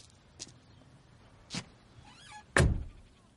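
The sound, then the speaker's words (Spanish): Three quiet, sharp thunks and clicks of a car door at a fast-food drive-through as a man gets into the car, each spaced about a second apart, the last one loudest. “Un coche se acerca al autoservicio. Gus tira la basura y sube al coche de Mike.”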